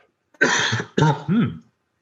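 Someone clears their throat in three rough, guttural bursts, the first longer and the last two shorter, loud and alone with no speech around them.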